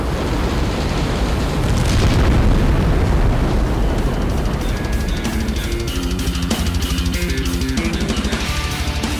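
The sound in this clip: A dragon firework going off, with loud, dense crackling and popping bursts that continue without pause from start to end.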